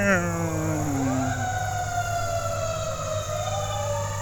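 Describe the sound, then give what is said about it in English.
Emergency vehicle sirens pass on West Maple Road, wailing in loud, sliding tones that swoop down and then rise and fall again over a steady low engine rumble. “As emergency vehicles drive by on West Maple Road,”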